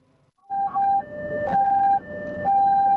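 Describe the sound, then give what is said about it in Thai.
An ambulance siren sounds from a rescue vehicle carrying an injured person to hospital in Phuket, a loud two-tone wail that switches between a high and a lower pitch about every half second. “ผลปรากฏว่ารถกู้ชีพเนี่ยเขาจะนำคนเจ็บไปส่งโรงพยาบาลแต่ปรากฏว่ามีรถไม่หลบให้รถกู้ชีพอีกแล้วครับ”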